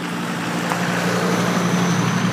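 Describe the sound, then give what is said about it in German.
A car driving past: a steady, broad rushing hiss of tyres and engine that holds at an even loudness throughout, with no voices. “Achtung, es fährt hier nochmal ein Auto an mir vorbei. Ich hoffe, das ist nicht zu laut.”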